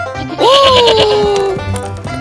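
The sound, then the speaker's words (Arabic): A goat bleats once in a cartoon fairy tale, a loud wavering cry of about a second whose pitch sags downward, over a steady background bed. “انتظري، عنزة حمقاء.”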